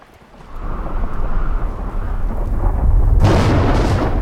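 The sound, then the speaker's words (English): Thunder as an evening storm breaks over a campsite: a deep, loud rumble builds within the first second, holds steadily, then surges into a heavier crash near the end. “Lightning flashes as a storm breaks over the campsite.”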